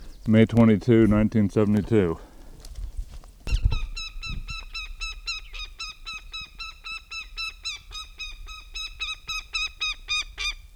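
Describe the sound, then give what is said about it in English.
A goshawk calls at its nest: after a brief spoken voice at the start, a long, rapid series of many repeated high, harsh notes rings out steadily to the end. “goshawk at nest”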